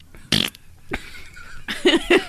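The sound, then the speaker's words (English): A fart sounds as a few short raspy bursts: one sharp blast near the start, a brief blip, then a cluster of quicker sputtering pops at the end. “and then you fart?”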